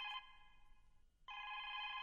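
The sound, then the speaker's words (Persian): A telephone rings faintly with a bright electronic trill that weakens, breaks off briefly, then resumes at full strength. “اجازه بدین که من تلفن جواب بتم”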